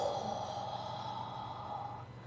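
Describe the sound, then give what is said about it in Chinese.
A slow exhale through the mouth during a guided relaxation breathing exercise: one soft, airy, steady breath that lasts about two seconds and stays faint throughout. “好，当你呼气的时候，用嘴呼气，”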